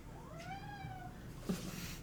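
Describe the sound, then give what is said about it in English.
A house cat gives one faint meow that rises and then falls in pitch. Quiet background hiss surrounds it. “That was our kitty Miles coming to say hi.”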